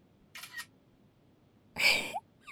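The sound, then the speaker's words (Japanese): A camera shutter fires as a photo is taken during a posed shot, giving a few crisp mechanical snaps spaced apart over a faint steady hiss. “このままこの構図で写真撮って。”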